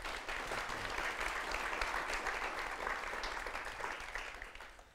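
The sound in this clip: An audience at an author talk gives warm, dense applause to welcome the speaker. The clapping stays fairly even for several seconds, then fades out at the end.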